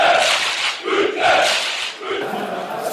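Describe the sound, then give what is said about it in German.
Football crowd at an amateur derby in an old stadium: a loud, continuous roar of many voices that swells and eases in waves, like shouting or chanting. “Denn dieses Mal, ihr hört es vielleicht im Hintergrund, sind wir im altehrwürdigen Grünwalder Stadion auch genannt, der Hermann-Gerland-Kampfbahn.”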